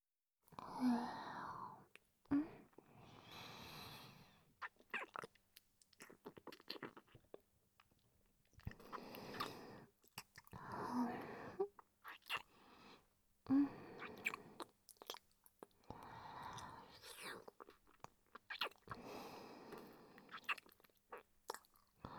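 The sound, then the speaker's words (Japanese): Soft, wet mouth noises from ASMR licking come in short clustered bursts with brief pauses between them. Faint breathy whispers sit underneath, and there is no clear speech. “舌をお出しください。はい。いつものようになめなめさせていただきます。”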